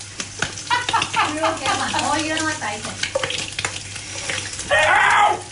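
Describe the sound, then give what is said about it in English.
Bacon frying in a hot pan hisses and crackles while people talk over it, then a loud burst of dense popping sizzle swells up toward the end. “Now that's very hot. Yeah, because the bacon was popping a lot.”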